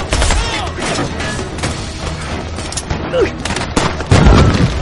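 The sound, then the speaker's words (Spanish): Dense rifle gunfire and explosions in a film battle around a tank as soldiers shoot at it and a grenade is thrown. A loud, continuous barrage of sharp cracks and booms runs throughout, with a deeper, heavier boom near the end. “Jan, de pie en el tanque, carga un rifle y dispara. Los soldados disparan contra el tanque. Jan lanza una granada.”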